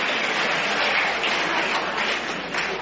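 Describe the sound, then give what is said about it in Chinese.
Stadium crowd cheering as spectators stand after a Chinese player's table tennis win, a continuous dense roar of voices and applause that holds steady and loud for the whole few seconds without clear breaks. “庄则栋以3-0淘汰了日本队员高桥浩，这是全场观众再次起立为我们中国队员取得最后的胜利而欢呼”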